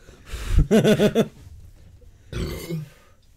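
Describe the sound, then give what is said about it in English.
Beer burps: a deep, croaking belch breaks into a quick pulsed rattle, and a second shorter, lower burp follows after a pause. “Don't need those beer burps in your face.”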